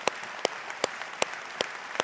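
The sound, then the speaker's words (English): A church audience claps together in a slow, even beat, giving six sharp, loud claps about four tenths of a second apart over a low crowd murmur. “Come on, everybody, let's put our hands together. Welcome each other to church today.”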